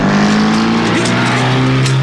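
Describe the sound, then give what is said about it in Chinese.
A car engine drones as the vehicle speeds away in a getaway, a steady loud low hum with a tonal whine holding through the whole two seconds. “金福他们急忙开车逃走，李都督的手下就在后面紧追不舍。”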